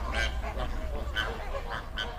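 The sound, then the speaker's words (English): Flamingos calling at an alkaline soda lake in Kenya, many nasal goose-like honks following each other in quick, irregular succession, fairly soft, with no voices. “The shores of Kenya's alkaline lakes have turned into a sea of pink. Lake Nakuru, Lake Bogoria, and Lake Magadi are the primary habitats for flamingos.”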